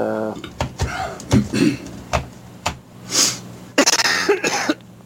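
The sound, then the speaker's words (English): A person coughs several times, each cough a short, harsh burst, mixed with a few other brief vocal sounds and knocks. “Cough.”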